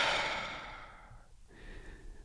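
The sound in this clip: A deep exhale after a held breath during a guided meditation: a breathy rush of air that fades away over about a second, leaving faint low noise behind.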